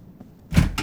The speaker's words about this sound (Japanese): ああ、今開けるから待っててくれ。